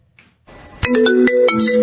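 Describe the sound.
A mobile phone rings in the middle of a speech, its loud electronic ringtone playing a quick run of bright melodic notes that keeps going to the end.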